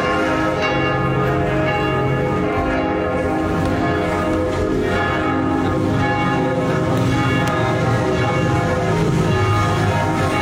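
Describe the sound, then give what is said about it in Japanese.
Church bells ring in Brussels at nine in the evening, a dense, continuous peal of overlapping metallic tones that stays steady and loud throughout, with no talking. “次はブリュッセルの鐘の音です。”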